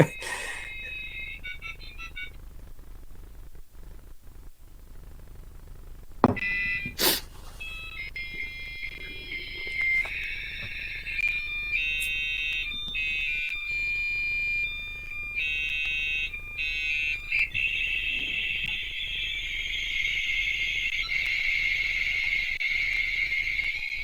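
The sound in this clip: Modem handshake tones from a terminal program making a V.90 connection: steady and shifting electronic tones and warbling bursts run continuously, then give way to a sustained, hissy, scrambled data tone.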